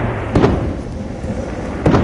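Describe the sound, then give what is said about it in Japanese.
Nightly theme-park fireworks bursting over a dark residential area, heard as two dull booms spaced well apart over a steady, continuous background rumble. “暗い住宅街の花火っていうか象徴的な景色ですね、 うん、これ毎日上がるってすごいですね。”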